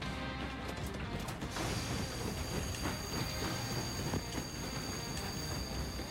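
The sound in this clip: A train brakes in a video game with a continuous rumble of rolling rail cars. Thin, high-pitched squealing tones run through it the whole time.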